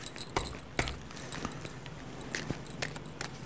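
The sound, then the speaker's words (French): Cards from a deck being briefly shuffled by hand at a card reading, giving soft papery rustling punctuated by several sharp flicking snaps, quiet and irregular, with no voices. “Je prends le jeu, je mélange un petit coup pour bien mettre d'autres énergies.”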